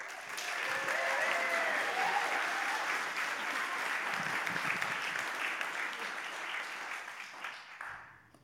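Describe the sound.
Audience applause welcoming a speaker at a church gathering: dense, steady clapping from many hands that gradually fades away.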